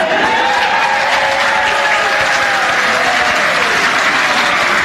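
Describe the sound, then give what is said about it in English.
Loud crowd cheering at a school gathering, with shouts and whoops riding over dense, steady applause that holds at full volume for the whole stretch. “Now, when they call out for participation, you make sure it's the loudest cheer.”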